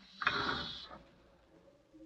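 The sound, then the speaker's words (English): The express elevator in the Norfolk Building in Midtown Manhattan runs with a ratcheting mechanical whir that swells loudly for about a second, then fades into a low, steady hum. “various floors of the Norfolk Building in Midtown Manhattan, waiting for the express elevator to take you to the lobby.”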